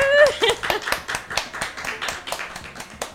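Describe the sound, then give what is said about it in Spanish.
An audience applauds in rhythmic, fairly loud clapping that continues throughout, with a brief voice at the start. “Un aplauso para ella.”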